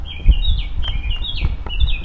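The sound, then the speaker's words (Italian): Birds chirp in the silent, earthquake-damaged town of L'Aquila, giving thin, high, repeated calls and short warbled phrases. A low, soft rumble runs underneath. “Un silenzio dove i passi fanno rumore e il cinguettio degli uccelli è l'unica voce viva”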